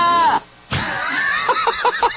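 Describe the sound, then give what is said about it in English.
A man's abrupt, non sequitur yell closing a played recording: a loud, voiced cry with wavering pitch, a brief silence, then a run of repeated whooping bursts that rise and fall. “And the way he just ends it with that completely, like, non sequitur yell is fantastic.”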